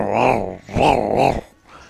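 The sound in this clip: A dog growls in long, loud, rumbling bursts: one sustained growl, a short pause, then a second growl that swells twice before it fades to near silence. No voices are heard.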